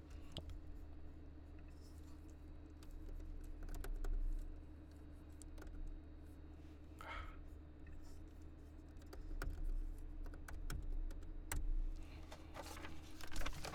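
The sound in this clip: Faint typing as someone writes a reply message: sparse, light taps scattered over a low, steady background hum.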